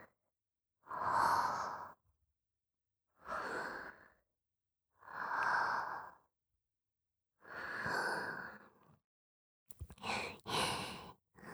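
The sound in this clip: Slow, deep breathing: four long, even breaths separated by pauses, followed by a few shorter, quicker breaths at the end, fairly faint and with no voices.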